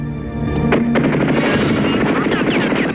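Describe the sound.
Soldiers open fire on zombies in a subway. A loud, dense burst of rapid gunfire roars on without pause, with voices and tonal sounds heard just before it.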